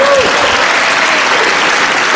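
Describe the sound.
Applause for a French minister announcing a government suspension procedure: a dense, loud, steady wash of many hands clapping that holds evenly through the whole stretch.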